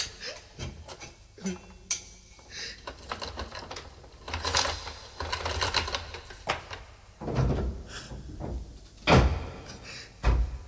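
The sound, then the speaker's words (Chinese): A prison cell door is unlocked and opened with a long run of metallic clanks, rattles and knocks, irregular throughout, with a few louder thuds and bangs toward the end. “快啲开锁啦，我即刻押佢出去噶。 好啊，咁我而家开俾你啊。”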